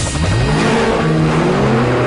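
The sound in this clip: A street racing car's engine revs hard and loud, its growling tone climbing steadily in pitch across the short burst.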